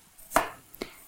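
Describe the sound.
A knife chops fresh ginger finely, giving two sharp, distinct strikes about half a second apart, clear and isolated with no talking.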